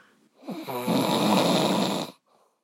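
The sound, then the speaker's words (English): A man snores loudly at night, around 2 a.m.: one long, harsh, rasping snore of about a second and a half, with faint breathing sounds just before and after. “His snoring is so loud that he can't even hear what I'm saying right now.”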